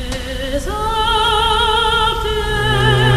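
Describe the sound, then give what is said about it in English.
A New York chime tone rings out as a sustained, bright electronic tone rich in overtones, stepping up in pitch early on and then holding steady over a low background rumble. “that's the noise. Oh my God, that is the New York sound. Yeah, it's a very New York-y sound.”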